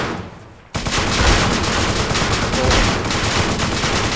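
Gunfire erupts after a brief quiet: a loud, dense stream of rapid automatic shots that begins abruptly and keeps going without a break to the end.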